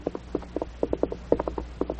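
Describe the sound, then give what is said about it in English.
Horse hooves clip-clopping as a rider enters a town at night: many quick, hollow knocks in a brisk, uneven rhythm, fairly clear over a faint low hum. “Pulling his hat low over his eyes to conceal his mask, he rode into Moose Jaw.”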